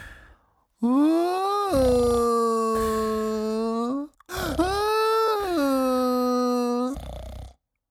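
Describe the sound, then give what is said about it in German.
A crocodile crying, voiced by a person as two long, wavering wails, each a sustained moaning sob that rises slightly at the start, separated by a short breath. “Hey, wer weint denn da? Hallo, Krokodil, warum weinst du?”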